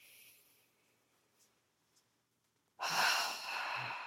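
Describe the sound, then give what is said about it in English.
A deep breath during a guided relaxation exercise. A soft, breathy rush of air comes in loud and steady near the end, after a long, nearly quiet stretch with only faint breathing. “You might take a few deep breaths,”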